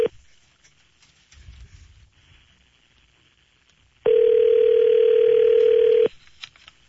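A steady telephone line tone sounds as a call is dialed, holding one even, loud pitch for about two seconds after a stretch of faint low rustling.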